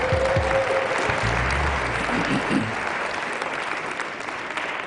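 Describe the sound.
Audience applause welcoming a pastor, Will Mackey: dense, steady clapping from many hands that stays loud and even throughout, easing only slightly toward the end.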